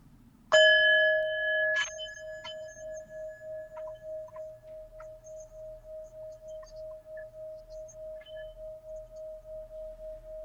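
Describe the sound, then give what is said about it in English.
A sound bowl is struck, a second strike follows shortly after, and then a single clear ringing tone sustains for several seconds with a steady, rhythmic wavering pulse, heard alone. “I'm about to do this, play the sound bowl.”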